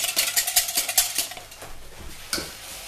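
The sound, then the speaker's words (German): A small whisk beats vegetable stock in a bowl for a vegan dish, starting with a quick run of rhythmic metallic strokes, then softer scraping and a single clink near the end. “Nehmen uns dafür einen kleinen Schneebesen, vermischen das Ganze.”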